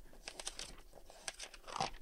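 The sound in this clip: Pages of a thick catalog are flipped through, giving many soft, quick papery flicks and crinkles in an irregular rhythm, quiet throughout.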